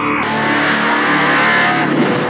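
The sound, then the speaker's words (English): Loud test-car engine revving and accelerating on a test track under punishing conditions, a continuous, steady roar with strong tonal harmonics that holds for the whole stretch without a pause. “They are the new breed of test driver, mercilessly putting cars through their paces.”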